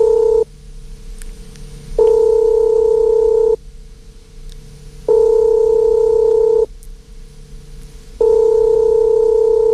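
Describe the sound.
A telephone line tone sounds while a caller phones a listener: a loud, steady two-pitch tone in evenly repeating bursts of about one and a half seconds, each followed by a gap of similar length. No talk is heard.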